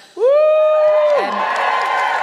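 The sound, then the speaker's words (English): An audience cheers for a performer: a loud whooping shout is held steady and then drops away, and a sustained wash of crowd cheering and hollering follows it to the end. “Just give me a cheer if you're also wearing a lie.”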